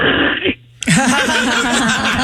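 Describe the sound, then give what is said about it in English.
A person's voice imitates hawking a loogie, a harsh, gravelly throat rasp that runs for over a second after a brief pause, preceded by a short vocal sound. “I wrote asterisk hawking a loogie sound.”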